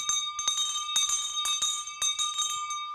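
A hand bell is swung and rung loudly, giving a quick, uneven series of bright metallic clangs whose ringing tone carries between strokes.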